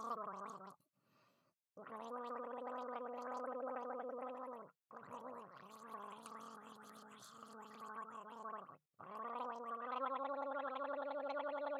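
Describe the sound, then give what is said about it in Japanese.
Loud, buzzing gurgling and gargling while noisily slurping ramen, in four long sustained stretches at a steady pitch, split by brief pauses. “ゴボゴボと音を立てながら、下品にラーメンを飲む姿、楽しんでください。”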